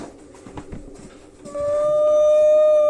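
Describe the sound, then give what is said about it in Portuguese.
Whale vocalization is picked up over a submarine's communications: a long, loud, steady tonal moan with clear harmonics. It enters after low, scattered murmurs and holds to the end. “Baleia? Baleias.”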